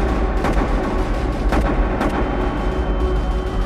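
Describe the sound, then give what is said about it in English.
Gunshots ring out inside the Grand Mosque in Mecca just after prayer, among a huge gathering of pilgrims: a few sharp, cracking reports stand out above a dense, constant rumble of noise. “Just as the prayer ended, shots rang out.”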